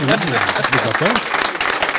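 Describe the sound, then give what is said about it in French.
Audience applause at the close of a live recorded debate near Rennes, a steady patter of clapping running under a man's continuous talk. “vous pouvez applaudir.”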